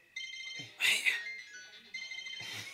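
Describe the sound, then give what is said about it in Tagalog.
A mobile phone rings with a bright, melodic electronic ringtone, its repeating tones sounding under people talking. “how phone yo ya re go lla”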